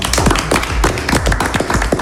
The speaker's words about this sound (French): on peut vous applaudir